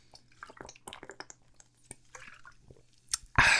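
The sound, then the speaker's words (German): Someone takes a sip of a drink: quiet, wet mouth sounds and small swallowing clicks scattered across the stretch, ending in a louder, brief rushing burst. “Ich nehme erstmal ein Schlückchen.”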